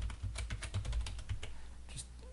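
Computer keyboard typing from a keyboard that is misbehaving and repeating characters during a password change: many quick, irregular key clicks in a steady clatter, with a short run of faster taps near the end.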